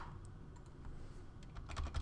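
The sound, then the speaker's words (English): Typing on a computer keyboard: a quick, faint run of many keystrokes clicking at an uneven pace, growing slightly busier toward the end. “So we type CAPM.”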